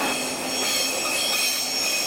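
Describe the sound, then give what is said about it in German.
A EuroCity train from Warsaw pulls into a station, a steady loud rumble overlaid with high, sustained wheel squeal that persists throughout without pause. “Der Eurocity aus Warschau fährt ein.”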